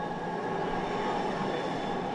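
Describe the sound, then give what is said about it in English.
A Green Line light rail train in downtown Minneapolis rumbles along in a steady, continuous low roar at an even level, with no voices and no distinct clacks or squeals. “While waiting for a Green Line train downtown”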